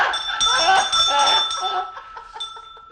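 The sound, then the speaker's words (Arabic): A hand bell used as a radio drama sound effect rings in bright, sustained metallic tones with several quick strikes, while people talk alongside it. “أنا صوت اتنبح لكن معايا الجرس. ايوه الجرس هو، انا بتاع الجرس.”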